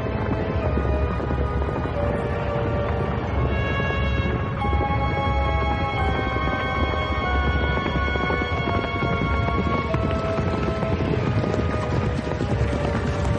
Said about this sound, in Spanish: La tormenta arrecia sobre un valle. La diligencia corre por un camino totalmente cubierto de nieve.